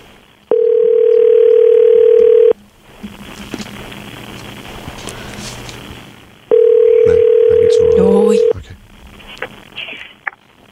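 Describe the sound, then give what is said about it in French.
A telephone line tone plays while a call is being placed: a steady, even tone in two long bursts of about two seconds each. A quiet pause with faint hiss and a few clicks separates them. “Okay, mais on appelle Eric. Écoute. On va l'appeler Eric.”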